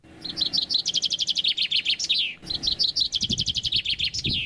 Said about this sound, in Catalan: Això és un pinçà. Ué! A veure, un pinçó. Ho ha dit bé.